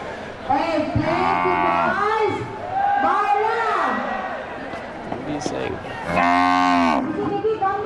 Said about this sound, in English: Cow.